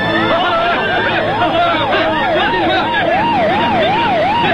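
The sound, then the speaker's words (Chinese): Police car sirens wail over and over, their pitch sweeping up and down in a steady repeating cycle. The sirens sound loud above a constant background of noise and murmuring voices. “有很多警车”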